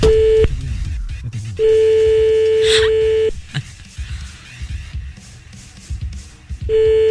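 Ringback tone of an outgoing phone call: a steady mid-pitched electronic tone in long bursts separated by quiet gaps. A cut-off burst opens, a full one follows, and a third begins at the end over faint background noise.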